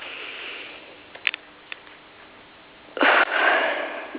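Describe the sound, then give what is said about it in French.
Deep breathing during a guided relaxation session. A few faint sniff-like clicks come first, then a louder, airy breath rushes in and continues to the end, with no talk. “Ok, et vous respirez profondément.”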